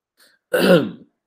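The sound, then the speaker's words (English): A single loud throat clearing, a short rough guttural rasp of about half a second, alone against silence. “Hey, man, you got to clear the throat when it comes to Brazil.”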